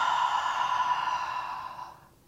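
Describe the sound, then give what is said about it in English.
A deep breath exhaled slowly through the mouth during a heart chakra sound healing session. A single long, airy release lasting about two seconds holds steady, then fades out, with no talk. “So we can just take a few more deep breaths in and deep release through the mouth.”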